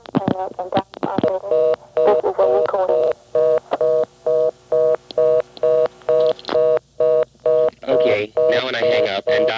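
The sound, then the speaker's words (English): Touch-tone telephone dialing: a long series of short, evenly spaced dial-tone beeps, each a steady mid-pitched dual tone, preceded by a brief voice at the start. “Now to make it hold it up, I've got to dial two more digits and hang up.”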